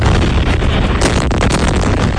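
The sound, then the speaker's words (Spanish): Explosions from US strikes on Iran at night make a dense, continuous roar of loud blasts. The rumble rolls on for the whole stretch without clear gaps between impacts. “Son los potentes ataques que ha lanzado Estados Unidos contra Irán por tercera noche consecutiva, por orden del presidente Donald Trump,”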